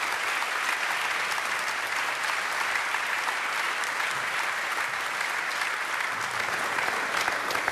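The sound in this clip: Sustained applause from a chapel audience welcoming a speaker to the platform: dense, steady clapping that holds at an even, fairly loud level throughout, with no voices standing out.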